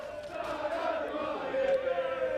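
Taranto football supporters welcome their team's players at a summer match with a faint, continuous crowd roar of sustained voiced tones. The roar holds steady and swells slightly toward the end.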